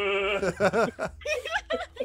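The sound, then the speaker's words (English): A person's voice imitates a goat bleating, giving a few nasal, wavering 'meh' calls in quick succession. The calls are fairly loud and uneven in pitch, with no other sound around them. “The goat's like, meh, meh.”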